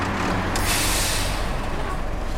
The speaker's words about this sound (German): Neben uns hält ein LKW.